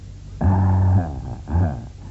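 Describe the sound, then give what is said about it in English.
Dog growling in two low, rumbling bursts, the first longer and the second shorter after a brief pause. “Good doggy. A nice doggy, said Mr. Simpkins. Worthington said nothing, but raised his top lip in a sort of sneer.”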